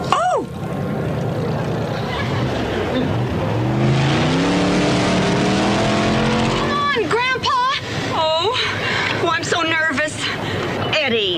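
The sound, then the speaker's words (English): A car races away from the starting line, its engine tone climbing steadily as it accelerates and holding loud, then giving way to excited voices and cheering near the end. “This is quite an attractive vehicle. Detroit could take a lesson from this design. Look, there's Grandpa at the starting line.”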